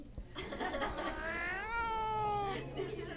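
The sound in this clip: An unhappy cat gives one drawn-out, wavering meow that slides downward in pitch toward its end, heard over a steady, muffled background.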